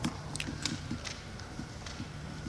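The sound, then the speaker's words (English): Footsteps descend stairs during a meeting: a faint, steady run of many soft thuds and scuffs in an even rhythm, with no voices over them. “Oh, he's walking down the stairs. Anyone here from DPW? He just walked down the stairs.”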